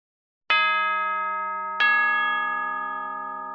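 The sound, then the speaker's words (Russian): Two strikes of a school bell at the end of a class, each a bright, resonant metallic tone that rings on and slowly fades, the second following about a second and a half after the first. “Прозвучал колокол, отвлекая класс от учителя.”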